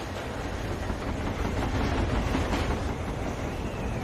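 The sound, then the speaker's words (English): A late-night subway train passing, a low, fairly faint rumbling roar with rattling texture that holds steady and swells slightly midway. “The lights of a passing train flash past as a man dozes on the late-night subway, his head resting against the window.”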